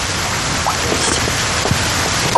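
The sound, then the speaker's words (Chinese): Rain falls outdoors in the Jiangnan region as a dense, even hiss that holds at a steady loudness, with a few faint spatters standing out. “你在外边淋雨干什么？ 感受一下江南的雨。”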